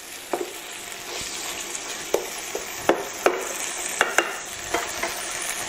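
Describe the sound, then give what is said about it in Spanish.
Onion gently frying in a pan gives a steady, soft sizzle, broken by a few scattered clicks and light scrapes of stirring. “Bueno, pues esta es la cebolla que la tenemos posadita, posadita, posadita. Fijaros.”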